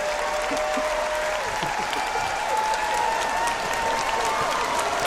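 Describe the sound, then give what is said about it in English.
A standing ovation from an audience that includes children, with sustained, even clapping and crowd noise holding at a steady level throughout. “Standing ovation. Standing ovation.”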